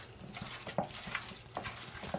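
Minced meat is mixed in a bowl, giving soft wet squelches and sticky slaps in an irregular rhythm, with a few sharper clicks among them.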